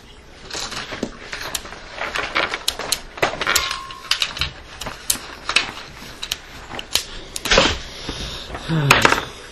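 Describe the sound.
Radioactive dice rattle and clatter as they are rolled, giving many sharp, irregular clicks and knocks of varying loudness over a faint background hum.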